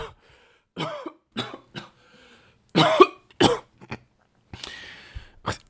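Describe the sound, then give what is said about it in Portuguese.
Coughing after choking on saliva: a series of harsh coughs and throat clearing, some single and some in quick pairs, in bursts of uneven spacing with short silences between. “Gente, desculpa, engasguei aqui com a, com a própria saliva.”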